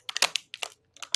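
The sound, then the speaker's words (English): A packet of kim (seaweed snack) is opened with sharp, crisp crinkling and crackling. The sound comes in three short bursts separated by brief pauses and stands alone, fairly faint. “That's the sound of me opening my seaweed, my kim.”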